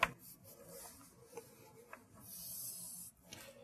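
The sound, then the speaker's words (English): Marker or chalk rubbing and scratching across a board as an equilateral triangle is drawn: a few faint, scratchy strokes, then one longer sustained stroke near the end. “I'm trying here really hard to draw an equilateral triangle”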